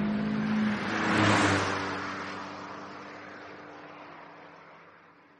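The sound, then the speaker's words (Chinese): A car engine revs hard as the gas pedal is floored and the car accelerates, the roar swelling to a peak early on and then holding as a steady, slowly fading drone. “想到这儿，我猛踩脚下的油门。”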